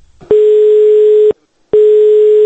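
A telephone line tone sounds while a call is being placed. A steady, pitched tone plays in two long pulses separated by a short gap, and the second pulse runs to the end. No one speaks.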